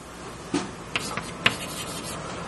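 Writing down a mathematical formula during a lecture: a few faint, short scratching strokes and taps spaced unevenly across a quiet background.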